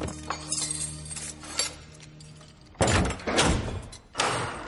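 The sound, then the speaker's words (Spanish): A heavy door at a great fortress wall is opened by a soldier. A low hum comes first, then a few loud clunks, scrapes and clinking knocks arrive in separate bursts, with no talk. “Un soldado abre una puerta.”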